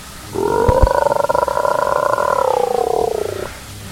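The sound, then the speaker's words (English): A human voice imitates a wolf growl, but it comes out as a robotic buzz: a steady, harmonic drone with rapid pulsing that lasts about three seconds, loud and alone, and sinks slightly in pitch near the end. “I'm gonna, I guess, growl back at the wolf, which just kind of comes out as a”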